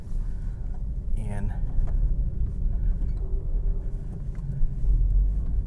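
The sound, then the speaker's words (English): A car drives on about four inches of fresh snow on a quiet cul-de-sac road with its traction control switched off, giving a steady low rumble of engine and tyres throughout. “It's about 4 inches deep in snow. We've got this lovely, let's turn off the traction control. Yeah, see how this car handles”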